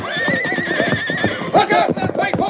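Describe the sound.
Loud, high whinnying neighs from Silver, the Lone Ranger's horse, rise over shouting voices, with a stronger burst of neighing in the second half of the moment.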